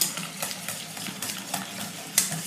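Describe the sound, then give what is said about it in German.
A whisk beats a creamy quiche filling made with organic eggs in a bowl. It gives many quick, rhythmic scraping and tapping strokes against the bowl, with a sharper, louder stroke near the end, and no one speaks. “Das ist wirklich ein Schneebesen hier, doch. Also. Och ja. Jetzt kommt's. Eine richtig schöne, cremige Masse machen.”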